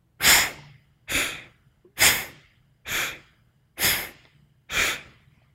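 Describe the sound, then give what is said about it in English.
Alternate nostril breathing exercise, six forceful nasal breaths spaced roughly a second apart, each a sharp airy rush that quickly fades into quiet before the next. “For side two, exhaling on side two, inhaling side one.”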